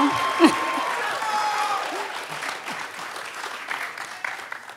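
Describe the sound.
Audience applause for coaches coming on stage at an evening ministry gathering: dense, sustained clapping and crowd noise, loud at first and easing slightly toward the end.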